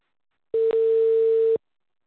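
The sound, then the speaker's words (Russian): A telephone ringback tone plays while a call connects. It is a single steady mid-pitched tone lasting about one second, with a brief dip near its start, alone against silence. “Повторная попытка. Начинаем звонить абоненту. Ожидайте соединения.”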